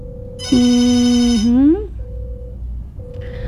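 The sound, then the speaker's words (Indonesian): Telephone ringing heard as a single sustained ringtone note lasting over a second, its pitch bending upward at the end, over a quieter steady background tone. “Ring, ring. Oke. Urang tampi heula.”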